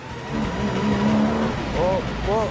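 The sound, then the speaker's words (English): A car speeds and swerves through city streets, its engine droning and rising in a steady strain, then two short, sharp tire squeals ring out in quick succession near the end. “and they shoot off at breakneck speed along the city streets. Swerving past cars at an ever-increasing speed.”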